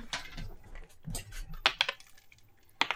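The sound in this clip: Obsidian dice rolled for a tabletop role-playing game, rattling and clicking in a few quick clusters of sharp, bright clatters separated by short quiet gaps.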